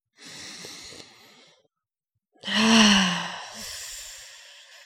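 A deep breath drawn in with a soft, airy hiss, then after a brief pause a longer, louder exhale that carries a slight voiced sigh before trailing off, taken as part of a calming practice.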